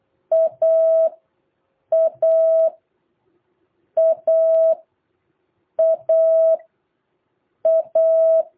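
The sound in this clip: Morse code letter A, a dot then a dash, beeped five times as a steady mid-pitched tone, each short-long pair separated by clear pauses, with no voices.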